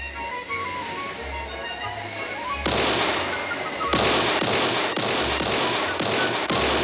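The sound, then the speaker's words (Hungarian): Gunfire from the shore breaks out after a stretch of low, tonal background hum, as a series of loud, sharp, cracking shots repeats at an irregular rhythm. “Istenem, miért lőnek?”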